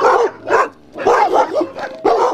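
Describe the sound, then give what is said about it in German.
Huskies, part of a group of 21 dogs on Andøya in northern Norway, bark and yip in a rapid run of loud, high-pitched, overlapping calls with short pauses between bursts. “nach Andøya gebracht, wo schon 21 Hunde sehnlichst warten.”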